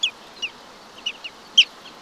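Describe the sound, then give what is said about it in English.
Black-bellied plover calling, a shorebird nesting on Arctic tundra: several short, high whistled notes, each slurring downward, spaced irregularly over a quiet background, with the last note the loudest. “Most migrate to the Arctic in summer, where many nest on the tundra, along rushing streams or on rocky mountainsides, like this black-bellied plover.”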